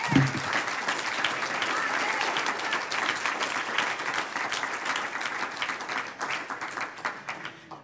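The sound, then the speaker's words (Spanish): Audience applause during a church sermon: sustained clapping from many people, steady at first and thinning slightly toward the end. “Un aplauso al que vive.”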